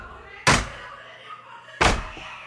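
Police pound on a door in a Spanish-language radio drama: two heavy, sharp bangs separated by a pause of over a second, with quieter background sound between them.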